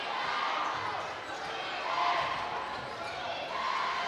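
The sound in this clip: A basketball being dribbled on the court during a high school boys' basketball game, its bounces sunk into a steady crowd murmur with a voice talking over it.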